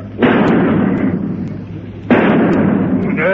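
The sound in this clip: Two loud gunshots fired at a fly crawling up a wall. Each is a sharp, heavy blast with a long ringing decay, about two seconds apart.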